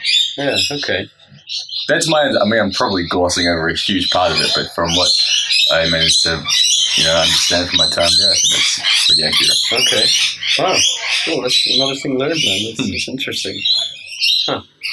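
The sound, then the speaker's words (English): Lorikeets and other birds chirp and squawk almost constantly outdoors at a hotel on a tropical island, sounding under steady conversation between men. “So there's lorikeets and birds flying and chirping around.”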